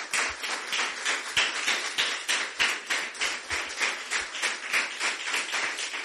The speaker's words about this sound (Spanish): Dale un aplauso al Señor, hermano.